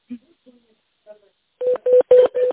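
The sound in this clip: Telephone keypad tones dialing an extension number: four short, evenly spaced beeps that follow a few faint, brief voice fragments.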